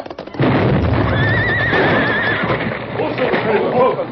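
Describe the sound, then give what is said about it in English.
Horses neigh in shrill, wavering whinnies as a landslide after a blast sweeps them away, with clip-clop hoofbeats beneath. The loud neighs repeat over steady, rough background noise. “A landslide following the blast swept Silver off his feet and threw the Lone Ranger to the ground. The landslide increased in fury. The Lone Ranger and Tonto and their horses were carried into the valley”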